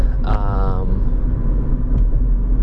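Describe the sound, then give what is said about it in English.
Road traffic rumbles past in a steady, low, continuous wash of vehicle noise. No single passing vehicle stands out clearly, and the level stays fairly even throughout. “I have to be careful here. Lots of traffic here.”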